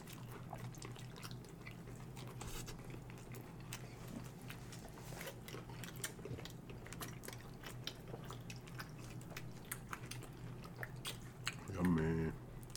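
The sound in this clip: Someone is chewing pepperoni, with faint, wet smacking and crunching in an irregular, continuous rhythm. A brief hummed voice sounds near the end.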